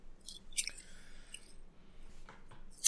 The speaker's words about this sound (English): Potato chips. Super stealthy. Yes, delicious.